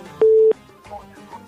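A single short, steady beep sounds on a telephone line as a listener's call is connected to a radio program, followed by faint low-level line noise.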